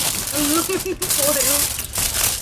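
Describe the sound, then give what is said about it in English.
Aluminium foil is lifted off food and crinkled, making a continuous crackling rustle under people talking. “Okay, can you please lift the foil?”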